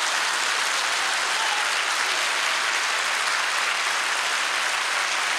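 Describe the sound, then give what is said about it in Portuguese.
A church audience applauds during a worship service, with dense, steady clapping that holds at an even level for the whole stretch and no voices standing out. “Vamos aplaudir o Senhor, o melhor aplauso. Pode aplaudir.”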